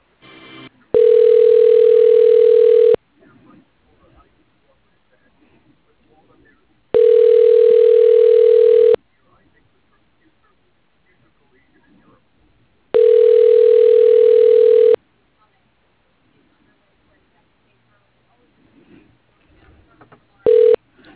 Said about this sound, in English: One moment, I will transfer you to his administrator.